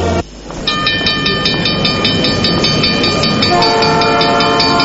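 A train arriving at a station rumbles steadily and loudly on the rails while sustained horn tones sound over it. A lower horn tone takes over toward the end, and no voices are heard.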